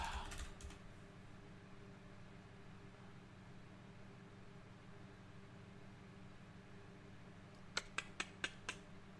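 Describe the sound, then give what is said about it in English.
Typing on a computer keyboard: a long stretch of steady low hum gives way near the end to five crisp, evenly spaced key clicks. “Let me try and type in his workout.”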